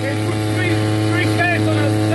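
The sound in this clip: A motorboat leaving an island near Kherson gives off a steady, loud engine drone throughout, with faint voices over it.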